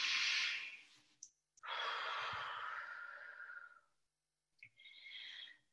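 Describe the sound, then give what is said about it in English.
Deep, slow breathing, soft and airy: a few long, drawn-out breaths separated by short pauses, with small clicks of the mouth between them. “Nice deep breath.”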